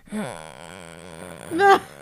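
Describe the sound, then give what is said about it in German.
A human voice imitates a contented animal grunting, a low drawn-out groaning tone with wavering pitch that swells into a louder, rougher grunt near the end. “Und wenn die so richtig sich wohlig fühlt, dann grunzt die. Dann macht die richtig so.”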